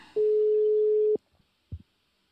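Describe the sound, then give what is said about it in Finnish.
A telephone ringing tone as a call is placed: one steady mid-pitched beep lasting about a second, followed by a few faint clicks. “Tosta laitetaan puhelu, puhelu menemään.”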